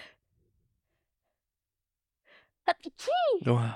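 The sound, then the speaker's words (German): A single sharp sneeze from a person after a long near-silent pause and a short intake of breath. A voiced exclamation follows right after it. “warte, ich muss niesen.”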